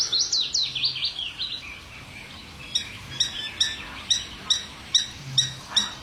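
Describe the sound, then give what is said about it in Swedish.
Birdsong from a willow warbler and a garden warbler: a bright, descending warbled phrase at the start, then after a short lull a steady series of sharp, evenly spaced high chirps, fairly loud and without voices. “Lövsångaren kör ju för fullt. Och sen är det en trädgårdssångare som även har vaknat här.”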